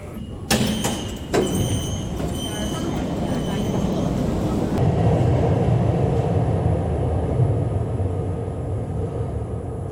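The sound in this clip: A subway train arrives at a Beijing platform with a steady, low, rumbling roar. Two sharp clanks come near the start, and the rumble then holds evenly to the end.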